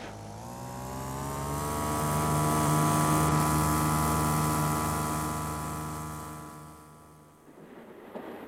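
Car engine at full throttle gives a steady, droning roar that swells to a peak and slowly fades over several seconds, ending with a short rustle.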